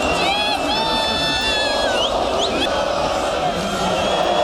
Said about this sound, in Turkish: İstiklal Caddesi, Taksim şu an sarı kırmızı ve burada taraftarlar eğlenmeye, sloganlar atmaya ve şampiyonluğu kutlamaya devam ediyorlar.